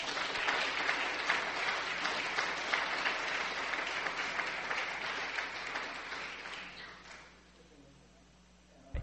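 A church audience at a Calvary service applauds to welcome a young preacher to the front. The clapping is full and steady for about seven seconds, then fades away to near quiet.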